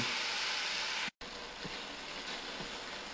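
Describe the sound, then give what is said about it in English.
Steady, bright sizzling hiss like something frying, continuous throughout apart from one brief dropout, with a few faint low pops underneath. “if you can hear some what sounds like sizzling”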